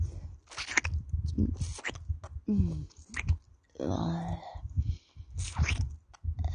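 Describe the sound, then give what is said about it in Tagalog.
Wet mouth sounds of saliva, smacking, licking and savoring come in many close, clicky bursts with moist smacks between them, alongside a soft voice. “Ayan, imasimasin ko. Duraan ko. Laway-lawayan ko ba?”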